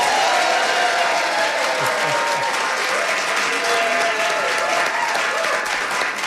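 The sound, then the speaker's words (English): A live theater audience at TheaterWorks in Hartford bursts into applause, a loud, unbroken roar of clapping that stays strong and steady for over six seconds. “We have a wonderful audience. Here's what they sound like.”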